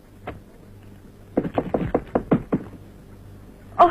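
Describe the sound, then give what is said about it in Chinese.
Knocking on a door: a single rap, then a quick run of several sharp raps, and a last louder knock after a pause, over a faint low hum. “我跟你说过多少次了，进来以前先要敲门。”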